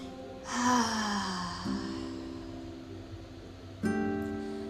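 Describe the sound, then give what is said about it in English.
A deep breath in and out during a guided relaxation, heard as one long breathy sigh with a faint voiced edge, followed by soft sustained tones. “Take a big, huge, deep breath with me into any areas of tightness or tension and let it out. One more time.”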